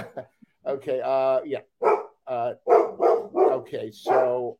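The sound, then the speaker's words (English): A dog barking in a rapid series of yips and barks, with one drawn-out whining bark near the start, loud and close throughout. “You talked about being single, the dog started barking.”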